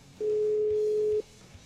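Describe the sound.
Telephone tone heard while a call is being dialed: a single steady, mid-pitched tone lasting about a second, then quiet.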